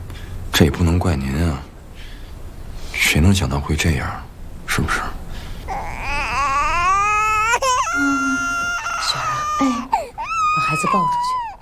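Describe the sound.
A baby cries in loud, drawn-out wails that waver up and down in pitch. Voices talk over the crying at the start.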